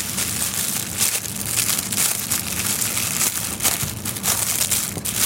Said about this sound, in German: Ich könnte aber auch so ein Dreiernetz einfach aufmachen, ne? Hier Dreier-Paprika-Mix.